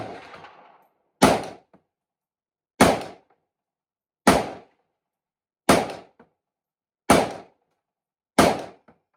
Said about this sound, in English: we're just watching people shoot M1 grands every episode now, because I like the ping.